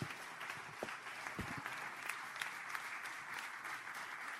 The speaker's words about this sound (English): Folks, give her a hand.